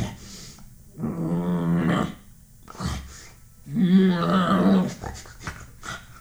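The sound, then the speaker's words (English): A human voice imitates an animal growling toward a bear and huffing: two drawn-out rough growls, with short breathy huffs between and after them. “he begins growling towards it and like making like huffing sounds like”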